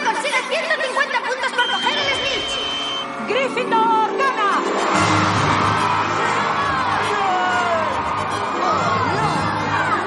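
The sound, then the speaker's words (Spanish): Excited crowd cheering at a Quidditch match in the 2001 fantasy film Harry Potter and the Philosopher's Stone. Scattered shouts and whoops swell after about five seconds into a dense, loud roar of many voices. “Malfoy se desespera, Hagrid y Hermión gritan eufóricos. Dumbledore y McGonagall aplauden.”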